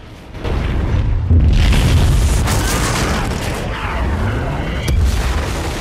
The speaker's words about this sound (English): The hospital ship is hit, as is the pier, the blast sending up showers of splinters.